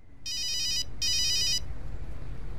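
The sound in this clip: A telephone rings with two bursts of a high, bright electronic ringtone separated by a short gap, over a low steady background noise that continues after the ringing stops.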